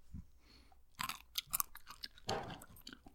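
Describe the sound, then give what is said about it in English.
Chewing a berry: a few soft, crunchy bites and wet mouth sounds in irregular bursts, faint and without talk. “The berry itself is delicious. Make sure you keep it in your mouth for a while.”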